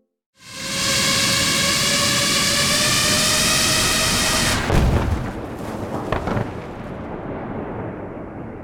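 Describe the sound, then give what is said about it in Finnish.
A drone's loud, steady high-pitched buzz, rich in harmonics, runs for about four seconds. Then a dropped explosive bursts with a broad blast, followed by rough rumbling noise and a few crackles. “Tältä kuulostaa, kun drooni lentää ja pudottaa räjähteen.”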